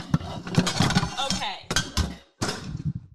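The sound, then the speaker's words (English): Metallic clanks and rattles as a frying pan is pulled out of a kitchen cupboard, a busy run of clatter with a short silent gap before more knocking resumes. “This is not rigged. I promise you, there is a fucking pan in here, and I did not check this prior.”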